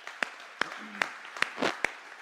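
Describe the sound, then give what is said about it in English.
Church audience clapping to welcome online guests, with sharp, evenly spaced claps at a steady rhythm over a faint background murmur. “Come on, church, we'll put our hands together to welcome all of our online guests today.”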